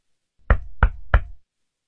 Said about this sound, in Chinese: 同时手上加大了敲门的力度。